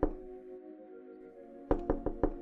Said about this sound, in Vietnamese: Tiếng gõ cửa ở phía trước bất ngờ vang lên, làm cho Yến